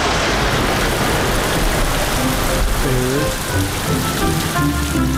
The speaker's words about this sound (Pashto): دی وخت کې باران پیل شو